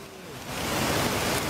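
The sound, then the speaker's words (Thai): Floodwater rushing in after heavy rain in Si Racha, Chonburi, a dense, steady roar of moving water that swells louder after a moment and holds. “ศรีราชาชลบุรีเจอฝนตกหนักนะออกมาดูบนน้ำโอ้โหอุทานด้วยความตกใจไปแล้วก็ตกใจถ้าดูภาพนี้ครับคุณผู้ชม ครับ หลังจากเห็นมวลน้ำมันไหลหลากเข้าท่วมพื้นที่อย่างรวดเร็ว”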